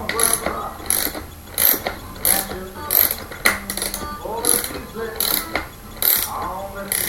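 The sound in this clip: A wrench ratcheting while tightening, with rapid mechanical clicking in many short, regular bursts, and talking heard in places between them.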